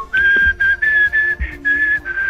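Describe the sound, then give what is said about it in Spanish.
A person whistles a loud, clear melody of sustained notes in short phrases separated by brief gaps, heard alone without talk. “Llegás silbando.”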